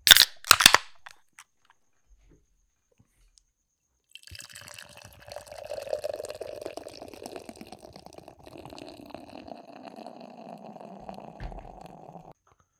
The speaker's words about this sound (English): Third beer in the lineup is poured out. We have the Speedway Stout, Espresso, Madagascar Vanilla Beans.